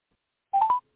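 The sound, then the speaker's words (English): Telephone keypad tone as a number is dialed: one short, clear beep about a third of a second long, heard alone after silence. “I dialed the wrong number. We're going to call this motherfucker up.”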